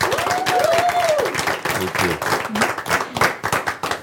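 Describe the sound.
Audience applause welcoming a speaker to the stage: dense, sustained clapping that fills the whole stretch, with a brief tonal whoop near the start and general crowd noise mixed in.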